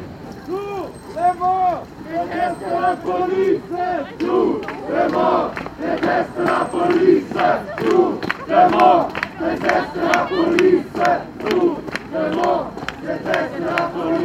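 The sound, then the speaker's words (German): Crowd of demonstrators chanting and shouting in loud, rhythmic unison as a protest march in Dessau assembles and sets off toward the public prosecutor's office, with the African community at the front and someone talking over the voices. “Also der Demozug sammelt sich jetzt und läuft jetzt los Richtung Staatsanwaltschaft.”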